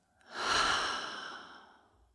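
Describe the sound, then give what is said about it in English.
A single deep breath from a guided yoga breathing exercise, in through the nose and out through the mouth: one long, soft, breathy rush that swells quickly, then thins and fades over about two seconds, with no talking. “let's take one more deep breath in through the nose, out through the mouth”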